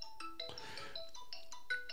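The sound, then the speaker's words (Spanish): An incoming-call telephone ringtone plays a quick melody of bright electronic tones, fairly faint, interrupted early by a brief noisy burst. “Bueno, ese teléfono sonó porque me está llamando en este momento desde un lugar bellísimo,”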